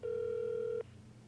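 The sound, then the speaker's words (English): A telephone call goes unanswered as a single steady mid-pitched electronic ring tone sounds for under a second, then cuts off to quiet line hiss. “No one's picking up lately. What the hell's going on? He knows I'm calling.”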